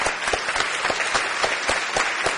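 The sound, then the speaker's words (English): Audience applause at a morning conference event: dense, steady clapping from a crowd fills the whole clip at an even, fairly loud level, with no voices standing out. “So let's give Sharon another round of applause, everybody.”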